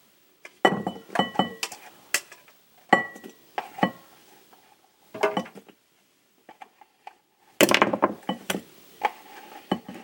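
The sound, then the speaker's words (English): Clattering and light clinking as homemade potato chips are tipped from a drawer into a bowl. It comes in many short, crisp bursts in uneven clusters, with brief pauses between them and no talk. “I'm going to take this drawer that all the potatoes are in that have been turned into chips. I'm going to put them into this bowl.”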